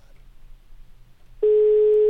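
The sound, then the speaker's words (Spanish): A steady telephone tone from a call being dialed starts abruptly about two-thirds of the way through and holds at an even, fairly loud level to the end. Before it there is only a faint low hum. “Vamos a marcarle. Venga. Ahí está la llamada.”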